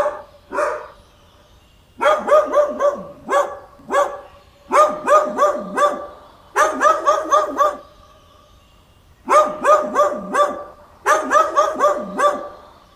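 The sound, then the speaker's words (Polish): Dog barking in repeated bursts, each a quick run of sharp, fairly loud barks separated by short pauses, continuing steadily with no voices. “Pies.”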